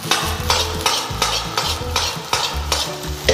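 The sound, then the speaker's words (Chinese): Fried rice with green peas and scallions is tossed in a wok, making a loud sizzle and a scraping stir that repeat at a steady, quick rhythm of many tosses. “现在明显能看到米饭在锅里面弹起来，形成了360度的旋转，再加入青豆，加入葱花”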